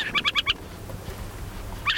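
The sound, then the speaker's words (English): An adult owl calls from a fence post beside a den in southern Idaho: a quick run of four harsh, clipped notes, a pause, and another call starting at the end. “An adult owl has been watching us from a fence post, probably the whole time. It's a call a bit less fearsome above ground.”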